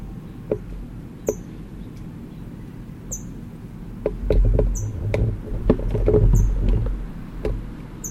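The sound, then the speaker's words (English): Sharp, high chip notes come from an adult bird at its nest with food in its bill. They repeat at irregular intervals over a low, steady background rumble. “Adult is chipping. It's got food in its bill, and I'm hoping it will go in, but I doubt it.”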